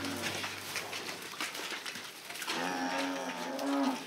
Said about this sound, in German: Das Jungvieh kommt raus. Nach Monaten im Stall dürfen die Rinder zum ersten Mal auf die Weide.